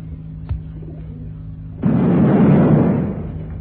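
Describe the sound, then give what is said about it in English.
A bomb set off by a radio transmitter explodes: a soft click and a steady low hum, then a sudden loud blast that roars on heavily before slowly fading. “Now, switch on the transmitter. Yeah. Working perfectly. Now we activate the bomb.”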